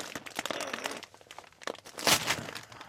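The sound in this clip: Crinkling and crunching plastic as a bag of coarse salted Totenflak potato chips is opened, a few sharp rustling bursts with the loudest crackle near the end.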